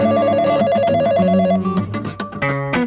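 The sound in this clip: A telephone rings for an early-morning call on a summer Saturday. An electronic warbling tone repeats for about one and a half seconds, then gives way to a few different melodic tones.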